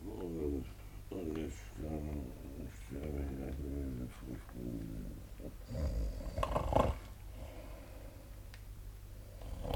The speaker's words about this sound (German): und der Tote schnarcht ja.